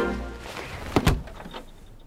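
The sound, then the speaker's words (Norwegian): A snowball thrown against a second-floor window pane of a house outdoors, heard as a couple of quick dull thumps close together over a soft background. “Utenfor et hus kaster hun snøball på en rute i andre etasje.”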